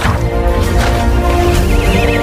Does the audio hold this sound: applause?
no